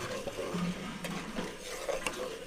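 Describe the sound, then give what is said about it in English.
Flour and ghee stirred in a pan make a soft, steady scraping and shuffling, with a couple of sharper utensil clicks. It stays low and even throughout, with no voices. “When he turns back to the pan, he continues stirring the flour and ghee.”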